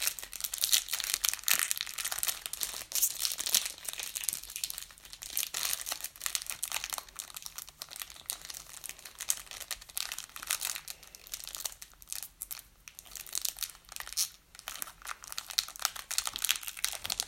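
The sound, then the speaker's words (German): Plastic wrapper of a trading card booster pack crinkles as the pack is opened, a fairly quiet, steady crackling and rustling that continues throughout with small irregular bursts. “Bro, ich schneide das jetzt einfach auf. Ich bin einfach zu dumm, um das aufzumachen.”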